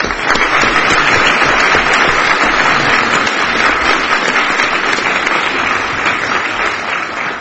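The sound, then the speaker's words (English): Applause in a courtroom as a court session opens, loud, dense clapping from the room that stays steady throughout and eases slightly toward the end. “if you don't mind, I'd like to applaud Judge Noonan's contribution to our court.”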